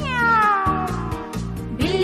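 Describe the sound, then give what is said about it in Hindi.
A cat meows in a long, drawn-out cry that slides downward in pitch, followed near the end by a shorter, rising cry. “बिल्ली मासी कहो कहाँ से आई हो, कितने चूहे मारे तुमने, कितने खाकर आई हो।”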